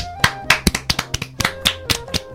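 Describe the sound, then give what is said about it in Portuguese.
Hand clapping from a small group of people, about a dozen sharp, uneven claps over two seconds, loud and crisp with no talk over it. “palmas.”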